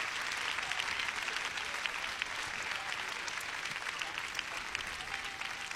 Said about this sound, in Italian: Fate un applauso a questa ragazza, davvero se lo merita.